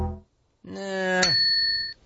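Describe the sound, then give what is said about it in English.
A bell sound effect played as a paid chat alert during a live stream: a sustained bright tone joined midway by a single sharp ding, with high ringing that holds for about a second before cutting off. “Not that bell. We need its own bell.”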